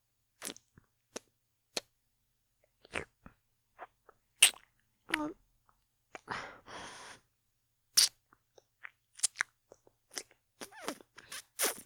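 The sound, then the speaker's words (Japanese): Wet licking and mouth sounds: many sharp, scattered smacks and clicks with short pauses between them, and a longer breathy, slurping stretch near the middle. “大丈夫ですって？そうですか。なら、舐めさせていただきますね。”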